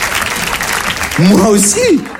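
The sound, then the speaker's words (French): Audience applause at a stand-up comedy show, a dense, steady patter throughout, with a voice rising loudly over it in the second half. “Ils applaudissent, bah oui.”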